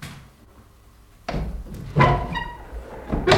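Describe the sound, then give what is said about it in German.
A window opens in a city house: after a quiet stretch comes a sudden clunk of the latch, then a second knock with a brief high squeak, and a final knock at the end. “öffnen Sie doch bitte eines der Fenster, damit Heidi hinaussehen kann.”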